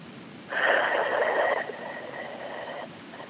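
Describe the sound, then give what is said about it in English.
A slow exhale during a breathing exercise, a long breathy rush of air lasting over two seconds, stronger at first, then continuing softer before stopping, with no talk over it. “I could hear that exhale”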